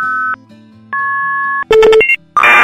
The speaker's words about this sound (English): Here, I'll call it right now and you can hear what it sounds like.